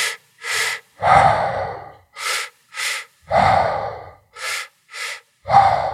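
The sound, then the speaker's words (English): Rhythmic deep belly-breathing exercise: two quick sniffing inhales are followed by a long, breathy exhale, and the cycle repeats steadily and loudly with no talking. “So you take that first breath down into the bottom of your belly. You can even stick your belly out when you breathe a little bit.”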